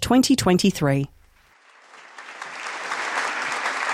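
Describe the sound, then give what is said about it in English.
Audience applause for panelists walking on stage at a live talk at the Sydney Opera House. A voice speaks briefly first, then after a short pause the clapping swells gradually into full, steady applause from a large crowd. “Hello, look, we got an applause just for walking on.”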